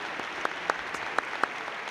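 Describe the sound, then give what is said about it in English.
A church audience applauding in praise, a dense steady wash of clapping with a few sharper individual claps standing out. “Let's give the Lord a hand of praise. Can we do that?”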